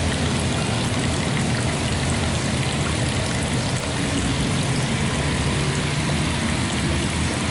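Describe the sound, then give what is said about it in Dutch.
A tiny stream of water trickles into a very small water basin, making a steady, unbroken splashing hiss. “Heel klein waterbassin met een mini stroompje water. Maar het klinkt zo leuk.”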